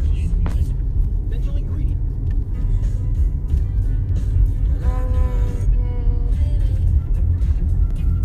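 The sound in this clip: A steady, low road rumble fills a car driving late at night, heard from inside. It stays constant throughout, with a brief voice around the middle.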